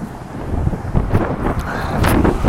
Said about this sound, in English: It's a nice, sunny, breezy day, 75 degrees. The cool breeze in Los Angeles.